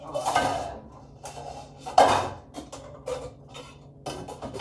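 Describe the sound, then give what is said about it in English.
A cooking pot and pan are handled while chili is being prepared, with a few sharp metallic clanks and softer knocks between them, over faint background sound. “I used the pan that I wanted to use, the pot that I wanted to use for chili.”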